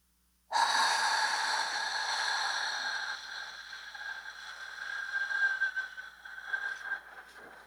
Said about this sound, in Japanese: 5秒吸って、1秒止める、15秒吐く。